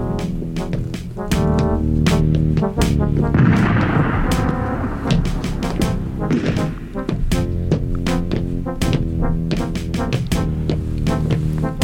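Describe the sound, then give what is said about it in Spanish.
Soldiers firing a volley of shots: many sharp, cracking reports in quick succession over sustained musical tones, with a denser burst of rumbling noise near the middle. “Pedid a los soldados que disparen.”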